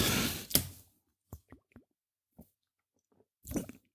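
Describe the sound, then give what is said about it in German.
A bottle of Astra Alster beer-lemonade mix is opened with a burst of fizzing hiss and a sharp crack, then a few faint small clicks and drips, and a short rustle near the end. “Also ist so ein Alster äh, von Astra halt. Und das öffne ich jetzt mal.”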